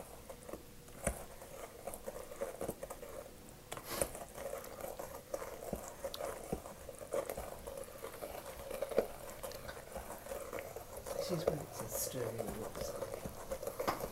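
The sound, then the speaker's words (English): Stirring a mixture in a bowl gives a continuous, faint, soft scraping and patter texture, with light irregular ticks from the utensil running throughout. “stir it all together. And we will get it mixed up.”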